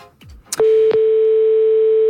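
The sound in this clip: A telephone tone sounds during a random prize-draw call: a couple of sharp clicks, then a loud, steady single-pitch tone that holds unbroken to the end.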